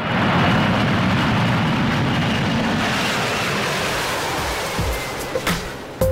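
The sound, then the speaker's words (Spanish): An airplane taking off, heard as a loud, broad rushing roar that slowly thins and fades, ending with a few brief clicks. “¡Despegamos!”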